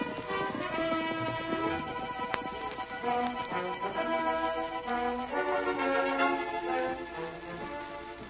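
Silver the horse gallops with a steady, rhythmic clatter of hoofbeats beneath a continuous swelling musical score.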